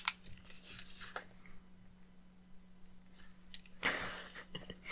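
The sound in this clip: A pen writing a number on paper: faint, scratchy strokes in two short bursts at the start and near the end, with near silence and a low steady hum in between.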